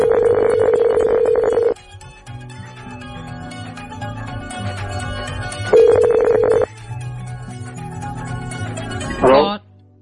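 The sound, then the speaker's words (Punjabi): Ringback tone of an outgoing surprise birthday phone call: two long buzzy rings separated by a pause, laid over a steady music bed, ending in a brief sweeping sound. “Harman radio ਪਰਿਵਾਰ ਵੱਲੋਂ ਇਹ surprise ਕਾਲ ਜਿਹੜੀ ਆ ਉਹ ਆਪਾਂ ਉਹਨਾਂ ਨੂੰ ਕਰਨ ਜਾ ਰਹੇ ਆ।”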